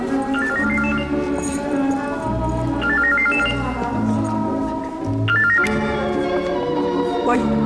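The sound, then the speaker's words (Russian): A telephone ringing with a melodic electronic ringtone, a quick rising run of bright notes that repeats several times over a steady background of lower tones. “Ой, звонок.”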